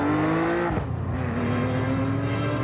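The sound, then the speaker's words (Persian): A speeding Porsche 991 sports car holds a strong, buzzing engine note that dips sharply, as in a gear change, then climbs steadily in pitch while staying loud. “میگم یه ماشین خیلی عجله داره. یه پورشه رفیق.”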